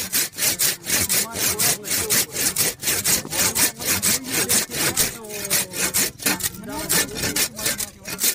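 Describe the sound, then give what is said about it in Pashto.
Hand sawing through branches of a wild tree: many steady back-and-forth strokes of the saw rasp on the wood in an even, regular rhythm, loud and with no talk. “خو لګیو د ځنګلي ککر ځینې څانګې په اره ریبلې.”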